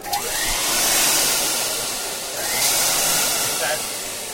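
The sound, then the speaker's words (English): Steady whirring of a machine motor, apparently a vacuum cleaner just back from a repair shop, running smoothly without its earlier strange noise. The loud, even hum swells slightly and then settles, with no talk over it. “This time the machine turns on without making the strange noise that worried them.”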